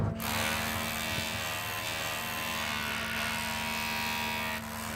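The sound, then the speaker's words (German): Crane machinery on a ship, tilted by the load, drones steadily as it lifts. The low, continuous mechanical hum and whine carries a faint rattle, with no talk. “Durch die Last am Kran stellt sich das ganze Schiff schräg. Aber nach einer guten Stunde kommt endlich Bewegung in die Sache.”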